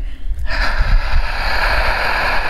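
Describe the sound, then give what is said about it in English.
A deep inhale: a sudden airy rush of breath that starts after a brief moment of low rumble and then continues as a steady, loud, breathy hiss to the end. “Feel your heart, feel your lungs expanding every time you inhale.”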